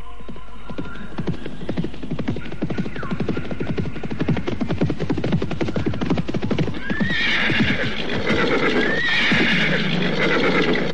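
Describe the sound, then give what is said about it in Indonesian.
Horses gallop as seven riders approach, their hooves clip-clopping in a rapid, steady rhythm. A few loud neighs rise over the hoofbeats in the second half. “Siapa lagi yang datang? Aku harus segera bersembunyi. Oh, 7 orang berkuda.”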